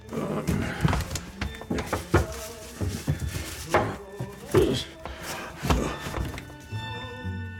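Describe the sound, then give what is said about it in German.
A wardrobe being opened: a busy run of hollow wooden thunks, knocks and rattles spread over several seconds, at a moderately quiet level. “Also mache ich den Schrank auf und lass mich auf die Knie fallen.”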